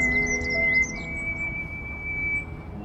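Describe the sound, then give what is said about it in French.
High, thin chirps come from birds at a spot said to hold many birds, including small treecreepers. A few faint calls fall in the first second over a soft, steady background hum. “cet endroit où on est, là, il y a beaucoup, beaucoup d'oiseaux, il y a des petits grimperons.”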